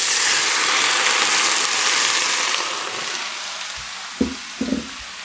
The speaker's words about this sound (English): Again, I'm keeping the heat on my pan fairly high. Let my tomatoes get in there.